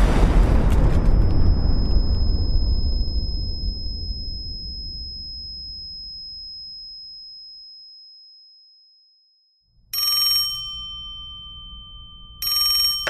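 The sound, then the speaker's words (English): A boiler rigged as a bomb explodes in a loud, broad boom whose rumble slowly dies away over several seconds, followed by a telephone ringing in two short bursts. “They rigged the boiler like a bomb. Any minute it's gonna...”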